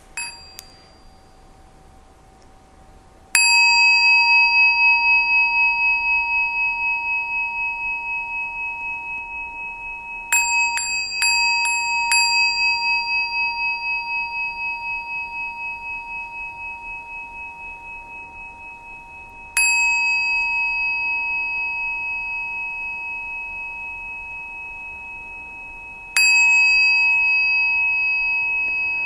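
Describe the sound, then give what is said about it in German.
A small hand bell rung in separate strikes, each a clear, bright ding with a long, slowly fading ringing tone, plus a quick cluster of about five strikes near the middle, alone with no talk. “und ich mache jetzt mal ganz bewusst mit der kleinen Glocke Geräusche und ihr hört einfach.”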